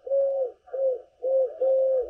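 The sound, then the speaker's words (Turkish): Eurasian collared dove cooing in Istanbul: four smooth, low, hollow coos in a steady rhythm with short pauses, clear and alone. “Kumru'yu da Orhan Gül İstanbul'da kaydettiler.”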